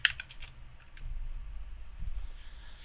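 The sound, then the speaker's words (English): Typing a search into Google on a computer keyboard: a brisk run of soft keystrokes at the start, then sparser, quiet taps and clicks. “go to Google and type in Reebok Halloween 2020. No, just Reebok Ghost Stomper,”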